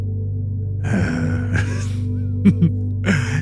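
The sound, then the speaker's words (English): A deep, slow cleansing breath, a long audible inhale and then a release, over a steady low drone. The airy breath sounds are moderately loud against the constant hum, with a softer breath near the end. “Let's take a cleansing inhale. And an even more cleansing exhale.”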